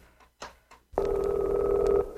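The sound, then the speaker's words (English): A telephone call is placed on the chicken phone: a few short clicks, then a steady buzzing tone holds for about a second before cutting off, with no talk. “I'm calling your son on the chicken phone.”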